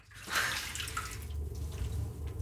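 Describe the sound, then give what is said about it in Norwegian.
Warm water pours into a sink over a paper report, making a soft, steady splashing hiss that swells early and then runs on evenly. The sound is fairly faint, and no voices are heard. “Så vi legger rapporten I vasken og heller varmt vann over papirene.”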